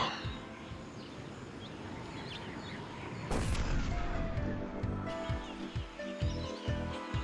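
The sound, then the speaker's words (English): A rocket launcher rocket jump in a video game gives one loud explosive blast cutting through steady background noise, followed by a rumbling tail and a few lighter thumps. “Grab a rocket launcher and rocket jump.”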